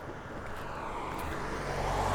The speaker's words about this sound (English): cars passing by and whatnot